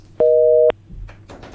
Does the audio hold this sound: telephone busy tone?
yes